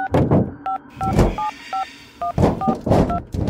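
Touch-tone telephone dialing as someone places a call during a horror drama: seven short beeps in an uneven sequence, mixed with louder low thumping bursts.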